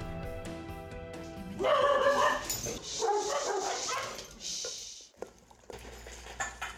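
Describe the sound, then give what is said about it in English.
Two dogs eating a gourmet meal of meats and vegetables make eager, noisy feeding sounds with snuffles and small whimpering yips, fairly faint and irregular over a steady background hiss. “Listen closely. That is the sound of two very happy dogs. They're eating a gourmet meal of meats and vegetables.”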